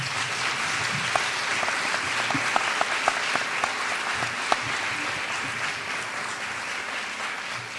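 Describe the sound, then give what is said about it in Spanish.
Audience applause at the close of a conference session, a steady, dense clapping that holds loud and even throughout with a few sharper claps standing out. “Agradecemos a los expositores con un fuerte aplauso.”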